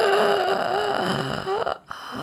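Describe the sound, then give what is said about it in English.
A voice imitates the strained, wheezy breathing of an airway blocked by diphtheria: drawn-out, rasping vocal breaths with a whimpering tone, ending in a short gasp. “eventually it starts cutting off your airway, and you start breathing like,”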